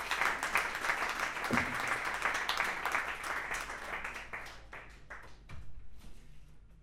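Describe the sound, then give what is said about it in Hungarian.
Concert audience applause for a young drummer, dense clapping that holds steady, then thins out into scattered claps and a brief final flurry. “Egy nagyon nagy tapsot.”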